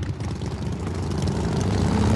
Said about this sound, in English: The man in the red bandana rides a motorcycle through the gate of the mansion.